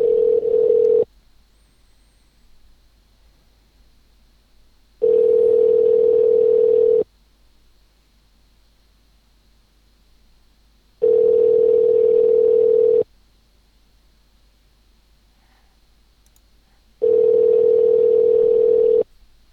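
Ringback tone on a telephone line while a call connects: a steady single-pitch tone sounds in bursts of about two seconds, separated by silent gaps of about four seconds, repeating four times with no voices.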